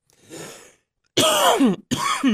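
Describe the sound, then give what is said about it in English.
A person coughing and clearing their throat: a muffled, breathy burst, a short pause, then two louder, rasping voiced bursts separated by a brief gap. “I grabbed the wrong knob before I coughed.”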